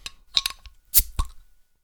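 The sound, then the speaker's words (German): A bottle of Trumer Hopfenspiel hop-forward beer being opened: a few small metallic clinks and clicks, then a short broad burst and a final knock, fairly loud and with no talk. “Dann werde ich mal das Flaschal aufmachen und kommen mal zur Verkostung.”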